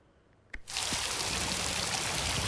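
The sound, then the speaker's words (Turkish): Heavy rain and running water on flooded streets in Aksaray, Turkey, during a downpour: a brief knock, then a dense, loud, steady hiss that starts abruptly and continues unbroken to the end. “Sağanak yağış hayatı felç etti. Yollar göle döndü.”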